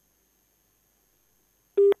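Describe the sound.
Telephone busy tone after a call-in line was cut off: one short, loud, steady mid-pitched beep sounding alone after near silence.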